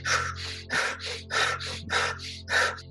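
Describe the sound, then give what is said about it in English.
Fast, rhythmic breathing: a quick, sharp inhale through the nose followed at once by a quick, breathy exhale through the mouth, repeated several times in an even pattern over a steady low hum. “The other way of breathing faster could be inhaling fast through the nose and then exhaling fast through the mouth. So it would be something like this.”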